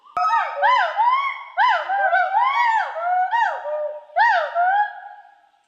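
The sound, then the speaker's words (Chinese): Gaoligong white-browed gibbons sing in chorus overhead in the Gaoligong mountain forest. Loud, clear whooping hoots swoop up and down in pitch, arriving in several overlapping bursts with brief pauses between them. “现在长臂猿在我们的正头顶，然后现在是合唱是吧？ 对，合唱。 他们的声音是呜呼呼这样的这种声音。”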